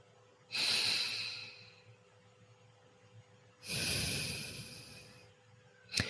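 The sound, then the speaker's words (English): Two long, deep breaths, each a broad airy hiss lasting more than a second with a pause between them, then a short sharp sniff at the very end; no one speaks. “Can you pause? Can you just take a deep breath right now?”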